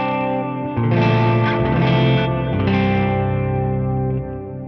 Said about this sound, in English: if I have it off, it's just like reverb. So here's with just reverb, and it's very canyony kind of.